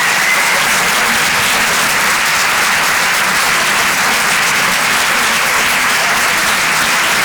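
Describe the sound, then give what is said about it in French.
Audience applause at a live stand-up comedy show, a dense, steady wash of many hands clapping that stays loud and even from start to finish with no voices over it. “Faites du bruit, s'il vous plaît, pour Bruno Becky.”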